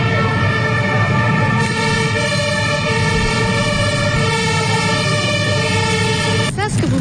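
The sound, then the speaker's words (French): Sirens from several military armoured vehicles and gendarmerie near a street demonstration give a loud, continuous, harmonic wail. Deep engine rumble runs underneath throughout. “C'était le son de plusieurs blindés militaires et de la gendarmerie”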